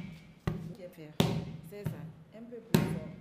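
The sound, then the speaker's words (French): A patient with one side paralysed kicks a ball during hospital rehabilitation, giving four sharp thuds spaced irregularly between stretches of speech. “Puis le malade tape dans le ballon, mais le côté paralysé ne répond pas fort.”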